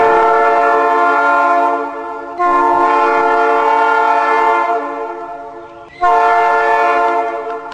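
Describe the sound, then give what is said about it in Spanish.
A train horn on the rail line through the Córdoba hills of Argentina sounds three long, loud chord blasts. The second fades slowly before the third begins, and the horn dominates throughout. “El tren llegó a este punto del país a fines del siglo XIX y tímidamente, algunos días, aún resuena su bocina.”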